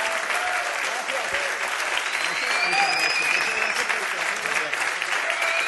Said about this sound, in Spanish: Un fuerte aplauso. Y otro también para el señor Mario Maselli.